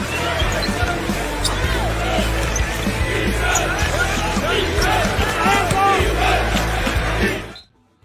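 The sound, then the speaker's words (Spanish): Basketball bouncing effect for an NBA court, with many rapid dribble thumps over a dense, busy background that cuts off abruptly at the end. “Exactamente, empezamos a botar el balón porque nos vamos a las duelas de la NBA.”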